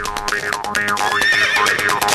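Horses pulling a horse-drawn ride neigh in loud, wavering whinnies. Several calls rise and fall in pitch and overlap with no pause between them.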